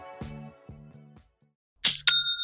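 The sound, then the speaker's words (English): A point-of-sale chime for a completed sale: a few short, lower tonal notes, then a bright metallic ding with long ringing overtones that sustains to the end. “That's the sound of another sale on Shopify,”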